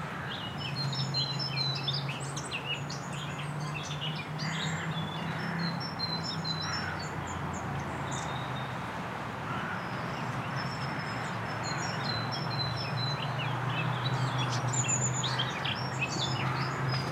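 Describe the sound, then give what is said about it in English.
A noisy wren sings chattering, somewhat robin-like phrases of high, quick chirps. The bursts repeat through the whole clip over a steady low background noise and are fairly faint. “Sort of chattering, robin-like, a little bit robin-like. Really noisy wren.”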